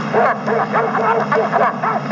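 A dog barks and yips in a rapid series of many short, sharp yelps, loud and continuous throughout.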